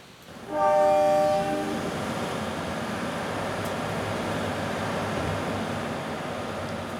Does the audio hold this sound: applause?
no